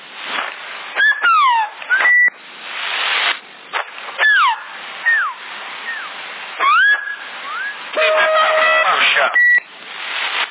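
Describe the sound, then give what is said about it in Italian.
Whistling transmitted over a CB radio: many short bursts of gliding whistle tones and steady beeping notes, thin and band-limited, separated by brief gaps. “Parla, non fischiare, se no non si capisce.”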